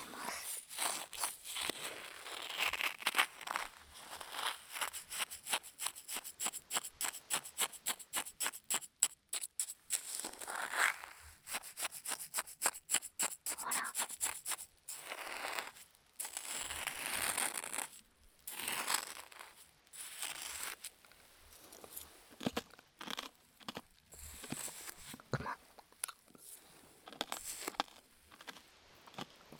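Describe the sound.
Shaved ice (kakigori) is stirred and crunched in a long run of quick, gritty crackles and crunches. They are fairly faint overall and come in a dense rapid burst near the middle. No voices are heard.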